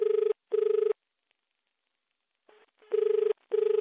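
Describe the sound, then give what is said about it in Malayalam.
A telephone rings as an outgoing call is placed: a steady, buzzy mid-pitched tone sounding in two double-ring bursts separated by a silent pause, loud and alone with no voices. “നമുക്ക് നേരെ കോളിലോട്ട് പോവാം”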